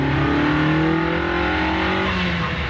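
A car with steering that pulls to the left accelerates hard, its engine a loud, continuous drone whose tone climbs gradually before levelling off.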